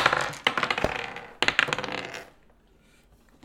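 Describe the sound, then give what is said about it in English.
Dice rolling on a table during a tabletop role-playing game's initiative roll: two bursts of loud, rattling clatter made of many quick hard clicks, the second burst fading into near silence. “These are loud die rolls.”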